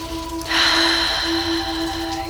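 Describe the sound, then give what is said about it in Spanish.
A single long, deep breath, airy and steady, lasts under two seconds over soft sustained musical tones. “qué bien se siente respirar. Vamos a respirar profundamente.”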